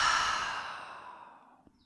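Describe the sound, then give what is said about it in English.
A deep breath released through the open mouth during a guided breathing exercise: one long, breathy sigh, fairly loud at the start and fading steadily over nearly two seconds. “Long, full breath in through the nose. Open the mouth and release.”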